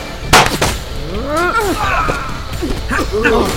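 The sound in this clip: A sharp gunshot blast cracks out near the start of a shootout, then tense voices talk over a steady background rumble.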